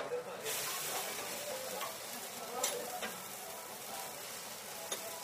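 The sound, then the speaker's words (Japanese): Takoyaki sizzling on a griddle as the balls are flipped: a continuous, faint, airy hiss of frying broken by a few light clicks and scrapes. “こうやって生まれて初めてたこ焼きを自分でひっくり返します。”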